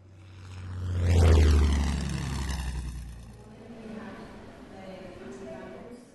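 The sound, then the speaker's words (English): A P-51 Mustang propeller aircraft flies over Suffolk in 1944. Its engine drone swells to a loud roar, and the pitch falls as it passes. A lower rumble then fades out. “here's the sound of a P-51 Mustang over Suffolk in 1944.”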